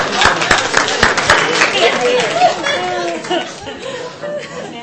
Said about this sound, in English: Bravo, give yourself a hand.